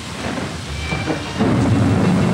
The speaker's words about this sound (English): Then the wind increases. The rain begins, small and hard.